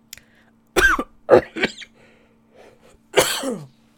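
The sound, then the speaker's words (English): Coughing after choking on spit: three harsh, close coughs, a short pause, then one more drawn-out cough with a rough, throaty edge. “Excuse me. My, got choked on spit.”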